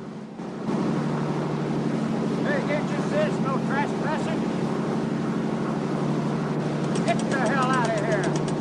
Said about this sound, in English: As the boat approaches Alcatraz, Harry and Moore take cover.